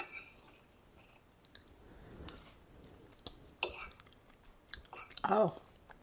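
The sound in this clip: Quiet chewing of cinnamon roll oatmeal drizzled with cream cheese during a taste test: soft, moist mouth sounds with a few small clicks, then a louder squishy burst near the end.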